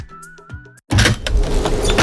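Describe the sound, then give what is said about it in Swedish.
A window is opened at bedtime on a cold night: a thin, steady mechanical whine lasts under a second, stops briefly, then gives way to a loud, broad rush of noise that continues to the end. “Men jag måste ha lite luft när jag sover. Måste du öppna fönstret för att få luft?”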